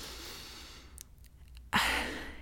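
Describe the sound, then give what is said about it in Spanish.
A woman taking a deep breath: two long, airy breathing sounds separated by a brief quieter gap, the second louder and fuller, with no talk over them. “Así que voy a respirar profundamente.”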